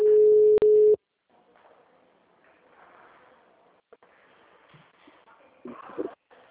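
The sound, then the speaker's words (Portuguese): A telephone line tone follows a dropped call: a steady, mid-pitched beep lasts about a second and is broken by a click. Quiet, faint line noise follows. “Caiu a ligação, desculpa. Caiu.”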